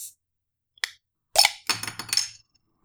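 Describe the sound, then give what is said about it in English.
A beer can cracked open with a weak, dull snap: a faint click, then a short pop and a brief burst of rattly, fizzy noise, all fairly quiet. “Very, very poor snap. Sounded like you were opening a mason jar.”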